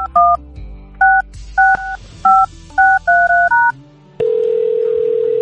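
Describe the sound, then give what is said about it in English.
A touch-tone phone number dialed for a radio call-in: a string of loud, crisp keypad beeps, then one long steady tone. “Let me dial this number here.”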